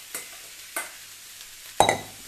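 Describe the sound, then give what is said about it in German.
Carrots searing in a pan, then minced meat added: two brief stirring scrapes, then a louder sizzling burst that fades out. “die Karotten scharf anbraten. Und dann können wir da schon das Hack dazu tun.”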